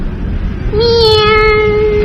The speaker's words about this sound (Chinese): 喵，真好玩呀。小白猫，这是白猫。